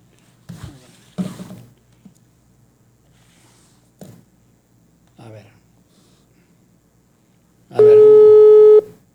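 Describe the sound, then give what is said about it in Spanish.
A telephone busy signal while a call is being dialed: a loud, steady electronic tone near the end, preceded by a few short, soft handling noises separated by quiet gaps. “Ahí estoy marcando a mi Capi Ramón Valverde, denme un segundo, a ver si no está ocupado. Bueno, voy a volverle a marcar al Capi.”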